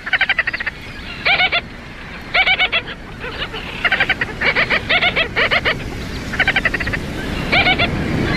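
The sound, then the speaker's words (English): A gull-billed tern calls, giving harsh, rapidly pulsed notes in many short repeated bursts, loud over a steady background wash. “The gull-billed tern is medium-sized and stocky, with a black cap and breeding plumage, pale gray wings, and a white body. Its legs and that gull-like bill are black, and it sounds like this.”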